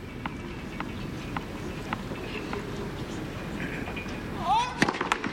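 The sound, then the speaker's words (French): A Spanish tennis player knocks clay-court dirt off his shoes during a match. Sharp, dry taps come at a steady pace over a low background, then a louder cluster of taps near the end. “On entend l'Espagnol enlever sa terre battue de sous ses chaussures.”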